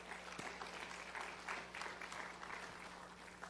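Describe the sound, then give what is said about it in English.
Faint applause from a church audience during a sermon: a steady, crackling wash of many hands clapping together for a few seconds, alone without voices. “And He's done the same for you, and you ought to just applaud Him for that.”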